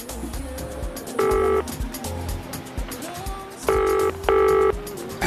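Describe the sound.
A telephone rings while a call is placed, giving three short tonal ring bursts: one early on, then two close together near the end, with quieter low background noise between them.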